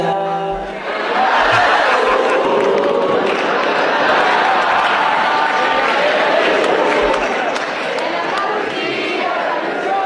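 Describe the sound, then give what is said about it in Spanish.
A live audience sings along together at a Christmas cue, a loud, steady wash of many voices blending into one sustained crowd chorus. “solamente dijo esta Navidad y ya todo el público empezó a cantar”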